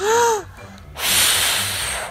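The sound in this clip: A voice imitates a wolf blowing hard at a house in a children's story: a short voiced tone, a brief pause, then a long, forceful, breathy blow lasting about a second.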